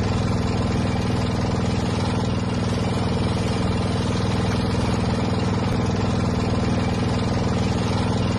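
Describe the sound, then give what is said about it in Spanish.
Steady, loud drone of a boat motor running on a river trip in Laos, a continuous rumbling engine hum with a clattering texture and no change in rhythm, heard alone without voices. “El sonido es el motor de una barca que nos puede llevar hasta Bang Bien”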